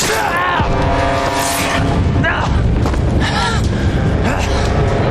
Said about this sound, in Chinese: 给我报靶位，往你们这儿炸！